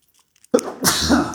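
A single human sneeze, performed on purpose as a playful sneeze: a few faint breaths, then a sharp catch and a loud explosive burst that trails off quickly.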